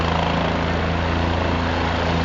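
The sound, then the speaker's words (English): A helicopter on a baseball field after flying in the game ball gives a loud, steady drone with a fast, regular rotor thumping that stays constant throughout, with no talking. “when you walk the baseball in with a helicopter, is then you got to wait for the helicopter takeoff.”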